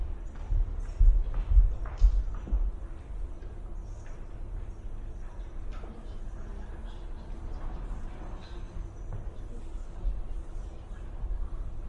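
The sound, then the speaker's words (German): A board being wiped during a lecture: a steady, low rubbing and scrubbing sound, a little louder near the start, with no talk over it. “Sie können noch kurz überlegen, dann wische ich ein bisschen. Genau, ich wische erstmal und Sie denken nach.”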